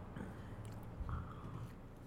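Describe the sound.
Someone chews a cream-filled maple pastry and a little coffee with quiet, soft, irregular mouth sounds and occasional light squishes. No one talks over them.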